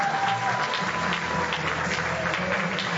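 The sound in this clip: Steady audience applause welcoming a speaker at a customer-experience talk: dense, continuous clapping that holds at an even, full level throughout with no voices over it.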